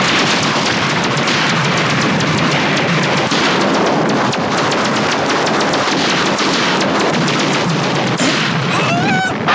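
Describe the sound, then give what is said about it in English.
Laser fire in a dramatized space battle roars as a loud, continuous barrage of crackling blasts and booms, with a few high zapping tones falling in pitch near the end. “Lasers on all sides. These guys don't play around.”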